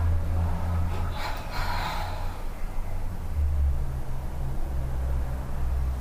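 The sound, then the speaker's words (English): A double exhale during a breathing exercise, two quick breaths pushed out in close succession, then a steady low hum continuing to the end. “Exhale with a double breath. One more time. Exhale.”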